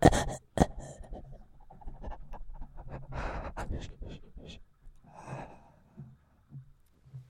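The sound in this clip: Heavy breathing performed by a person as a short breath solo: loud, uneven panting gasps and snorts, strongest at first and thinning to sparse, quieter breaths.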